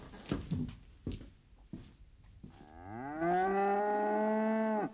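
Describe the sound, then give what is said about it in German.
A cow on a farm gives one long, loud, low moo that holds a steady tone, after a few brief quieter sounds. “Ich wachte auf vom Muhen der Kühe.”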